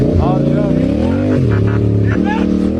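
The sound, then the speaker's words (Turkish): A motorcycle engine revs hard as its rider speeds away from a police checkpoint in İzmir's Menemen district. The loud, continuous engine note climbs and drops several times as the bike accelerates. “Ancak uyarılara aldırış etmeyen sürücü motosikletiyle hızla kaçmaya başladı.”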